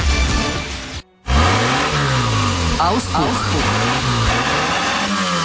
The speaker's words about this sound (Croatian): Auspuh.